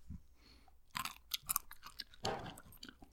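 Chewing a berry: soft, wet crunching and smacking sounds in a few irregular bursts, faint and with no talk.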